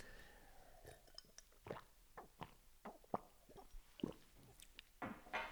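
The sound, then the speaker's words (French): Someone sipping and swallowing a little water: faint, wet mouth clicks and gulping plops come in an irregular series, with quiet pauses between them and no talking. “je vais boire un peu d'eau”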